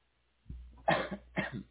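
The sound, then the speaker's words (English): Coughing interrupts an interviewer during a survey about rating feelings toward people and organizations: a few sharp, harsh coughs in quick succession within under two seconds, heard alone with no talk. “So sorry there, I had to cough.”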